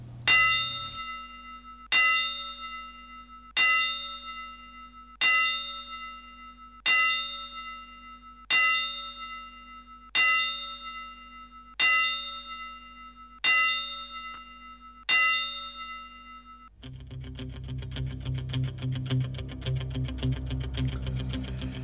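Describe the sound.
Ten bell strokes ring as a tribute to a boxer. They are evenly spaced, roughly every one and a half seconds, and each rings out and decays before the next. Music starts after the last stroke.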